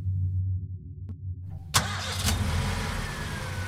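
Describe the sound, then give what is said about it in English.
A Toyota Camry's engine catches with a sudden burst after a low drone and a single click, then settles into a steady, rough running hum. “Lissa drives the Camry home.”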